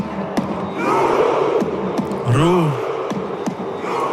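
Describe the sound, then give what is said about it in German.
Norwegian football fans chant together while miming rowing, loud massed shouting driven by sharp beats at a steady, regular pace, like oar strokes. “Die Norweger, die rudern einfach. Nicht nur im Stadion, auch auf der Straße. Die setzen sich da alle so hintereinander auf, wie im Ruderboot, und ziehen dann so ein unsichtbares Paddel an, wie so ein Rudergerät im Fitnessstudio. Klingt dann so.”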